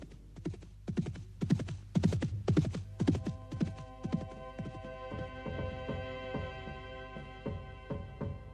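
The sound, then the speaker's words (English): Hoofbeats of a galloping horse, a rapid run of clip-clop strikes that starts loud, then thins and fades over a steady low hum. “Thomas was gone, galloping towards his destiny on the other side of the channel.”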